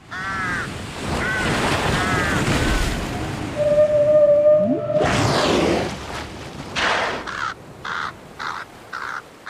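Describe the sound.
Whale song and a crow cawing over a wash of ocean surf: a drawn-out, sliding moan-like tone rises from the waves, followed by several harsh, repeated caws.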